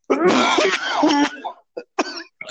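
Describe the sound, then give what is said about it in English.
A person coughing: a long, harsh fit of raspy coughing at the start, then a few short, sharp coughs in quick succession with brief gaps of silence between them. “let me start that coughing crap again.”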